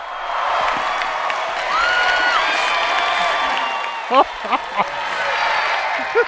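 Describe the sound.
A theatre audience at Kings Theatre in Brooklyn cheers and applauds to welcome a guest at a live science show: a steady wash of crowd noise with a few sharp whoops breaking out near the end.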